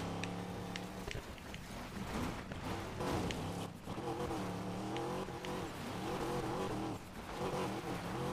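A race car's engine roars steadily as it drives at speed, around 140, in a video game, its loud, buzzy drone shifting up and down in pitch with the gear changes and turns.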